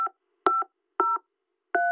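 Touch-tone beeps of a telephone number being dialed, short clean two-tone bursts tapped out in an uneven rhythm with silent gaps between presses.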